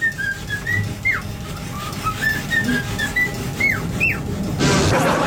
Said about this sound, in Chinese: 然后旁边小鹦鹉就站到他的肩头上面，就开始咻咻